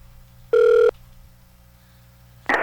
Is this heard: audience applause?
no